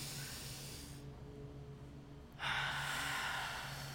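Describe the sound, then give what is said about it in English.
A deep breath is drawn in as a quiet, airy inhale lasting over a second. It rises suddenly after a short lull, over a faint steady low hum. “We need to take a breath right now. Ready? Okay. One, wait. No, not yet. Okay. And we're going to inhale.”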